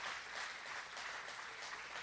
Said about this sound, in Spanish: ¡Aleluya! Dale un aplauso a Dios.